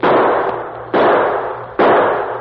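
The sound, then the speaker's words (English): Three gunshots fired into the air, each a sharp, loud crack with a short decaying tail, evenly spaced a little under a second apart. “And then, as he desperately shot his gun into the air,”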